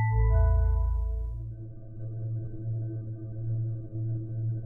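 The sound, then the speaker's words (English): An ominous buzzing hum from a black hole's containment field, a steady low drone that continues throughout, with higher thin tones that drop away one by one in the first second or so. “What is that ominous buzzing? It's Nadia. That's what I've named the black hole. It weighs about 1 ton. The ominous humming sound you hear is the containment field.”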